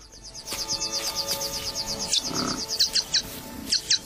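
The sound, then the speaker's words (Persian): Birds call as Jackson's widowbirds arrive in search of fresh grass: a rapid, steady series of high chirps, followed by sharper, louder calls spaced farther apart. “پرنده ها از راه میرسن. مرغ های جکسون هم در جستجوی علف های تازند.”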